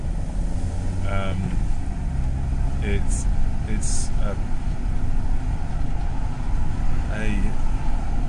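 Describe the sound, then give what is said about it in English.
Steady low engine and road rumble fills the cabin of an old green car while driving, a constant drone with no clear change in speed. “So until the day that I get a new car, which may never happen, I will be driving in this old green beast, because it's green.”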